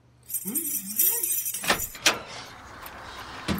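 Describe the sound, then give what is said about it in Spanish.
Keys jangle and a lock clicks as a door is unlocked. A brief muttering voice opens, then a few sharp metallic clicks follow. “¿Dónde están mis llaves? Acá está. ¿Cuál será la puerta? Ahí está, ahí está.”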